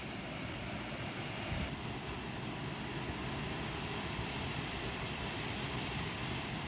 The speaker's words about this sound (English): Sit with me on this soft grass next to this roiling sea on a misty May day.